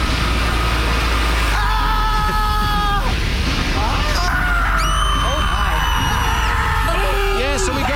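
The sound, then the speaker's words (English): A voice imitates screams from an imagined scream factory. The wavering, harmonic shrieks come in several separate bursts over a steady low hum. “Now we've cranked up our production to about 5,000 screams per hour.”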